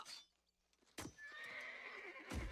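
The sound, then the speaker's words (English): A horse whinnies in a single long, quavering, high-pitched neigh, framed by a couple of dull hoof thuds, fairly loud and with no voices. “we didn't talk about Khan. Khan's the horse, actually.”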